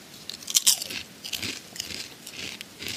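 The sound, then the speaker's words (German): Crunching of a lentil chip with 40% less fat: one sharp, loud crisp bite, then a few softer dry crunches as it is chewed. No one speaks. “Also wir, ich gönne mir jetzt noch so einen Linsenchip. Pass auf.”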